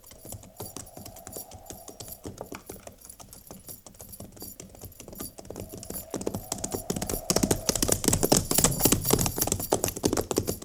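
Horses' hooves clip-clop steadily as a cavalry company of soldiers rides along, a dense run of many sharp knocking beats that starts faint and grows louder toward the end.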